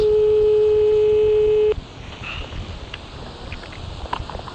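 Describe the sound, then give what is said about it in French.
A telephone call being placed: a loud, steady line tone holds for under two seconds, then cuts off abruptly, leaving faint line hiss with scattered soft clicks and noises. “On appelle donc Monsieur Simbo pour les marabouts.”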